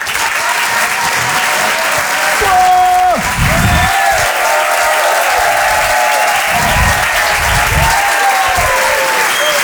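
Sustained applause from a comedy club audience in Paris greeting a comedian, a dense, steady wash of clapping that stays loud for the whole stretch.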